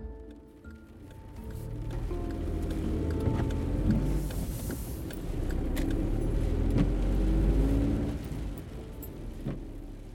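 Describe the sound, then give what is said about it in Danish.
A car drives along a country road in the dark: a low, steady rumble of engine and road noise, fairly faint, swelling twice and then easing. “Jeg kører på en landevej i mørket.”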